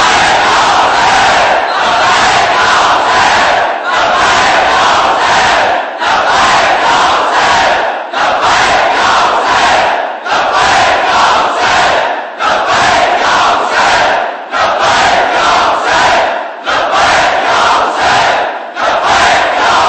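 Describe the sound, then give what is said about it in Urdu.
A large crowd at a religious gathering chants "Labbaik ya Hussain" in loud, rhythmic unison, with many repeated bursts of massed voices separated by brief pauses, keeping a steady pulse throughout. “لہذا لبیک کا حق ادا کرو، دونوں ہاتھ بلند کر کے، دونوں ہاتھ بلند کر کے، دونوں ہاتھ بلند کر کے روح تن کے ساتھ لبیک یا حسین”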